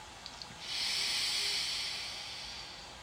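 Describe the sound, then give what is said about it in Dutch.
Slow, deep inhalation during a guided breathing exercise: a long, steady breathy hiss that starts softly, swells, then holds and slowly fades, with no talking over it. “We gaan nog eens samen inademen, heel langzaam.”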